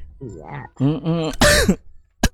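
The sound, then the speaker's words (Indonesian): A cough from a woman with a sore nose, heard after a stretch of her talking: one harsh, loud burst, then a sharp, brief second cough at the end. “Aduh batuk ya, sama.”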